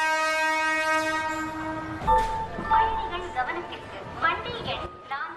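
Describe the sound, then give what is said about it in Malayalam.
A train horn blares in a steady, sustained tone for about two seconds at a railway station platform, then a low rumble and rhythmic rail clatter follow, with a voice talking over them. “അന്നേ ദിവസം Pallavaram railway സ്റ്റേഷനിലെ പ്ലാറ്റ്ഫോമിൽ train കാത്തിരിക്കുന്ന captain V P Sathyan തന്റെ ഓർമ്മകളിലേക്ക് നീങ്ങുന്നു.”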